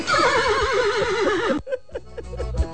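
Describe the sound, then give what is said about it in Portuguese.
A young foal neighing in a long, loud, quavering whinny that lasts about a second and a half, followed by scattered softer knocks and rustles. “Calma, Zunido, calma, não é zebra não, pai, é um cavalinho, pai.”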